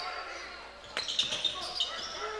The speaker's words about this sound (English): McGee Harris now dribbling up the floor, met by a double team, almost lost the ball, ahead to Uchman